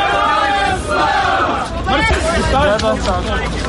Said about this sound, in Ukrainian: Щойно автобуси з українськими захисниками перетнули кордон. Тут їх дуже гучно і дуже трепетно зустрічають.